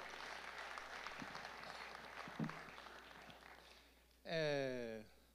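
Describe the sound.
An audience claps during a religious talk, a dense, steady patter of applause lasting about four seconds that gradually thins. A short, loud tonal sound then cuts in near the end.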